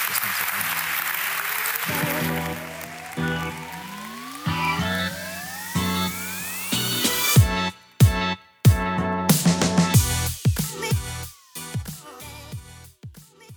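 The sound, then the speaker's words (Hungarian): Audience applause after a live onstage conversation about meeting the world's growing energy demand, a broad steady clatter under rising electronic sweeps for several seconds, then giving way to loud punchy music hits. “Nagyon szépen köszönöm a beszélgetést, nagy tapsot Mátrai Károlynak!”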